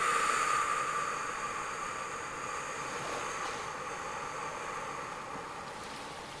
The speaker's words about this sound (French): je respire alors plus profondément encore, plus énergiquement. Et j'expire.